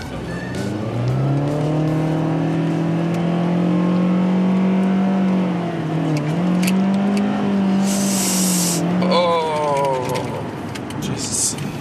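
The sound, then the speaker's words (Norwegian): A car drives fast out of a parking garage, its engine holding a loud, steady revving drone that wavers slightly in pitch, with a brief burst of tyre squeal near the end. “Kjører fort ut av parkeringshuset?”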